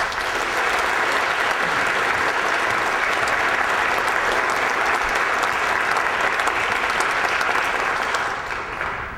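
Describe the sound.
Audience applause welcomes a speaker to the stage at a university student event: sustained, dense clapping, loud and even from start to finish, easing off only slightly at the very end.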